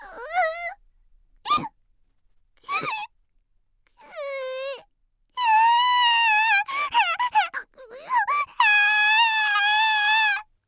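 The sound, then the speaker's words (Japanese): A female character's voice cries and wails: short high-pitched sobbing squeaks and whimpers at first, then longer, wavering, shrill wails. “あらら、泣き出しちゃったよ分身の方。”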